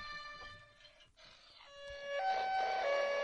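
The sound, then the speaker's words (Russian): Ambulance siren: a clear harmonic electronic tone that alternates between a lower and a higher pitch. It grows louder in the second half, with no voices. “Скорая. Это скорая.”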